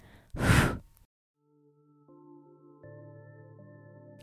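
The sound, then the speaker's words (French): A single breath blows out a candle flame, a short, airy whoosh of under a second, followed by a pause and then soft, sustained musical tones. “Charlotte décida de s'asseoir devant cette bougie, prit le temps de regarder la flamme qui dansait devant elle, avant de souffler dessus.”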